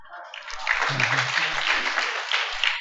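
Audience applause rises quickly after a brief quiet start, then holds as a steady wash of clapping for a little over two seconds before cutting off.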